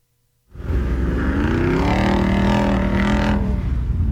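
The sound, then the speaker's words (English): A Jeep with the 392 engine bursts into a loud, deep, sustained roar after a moment of near silence. The rumble holds steady and full-bodied throughout. “Oh, that's the Jeep with the 392, isn't it?”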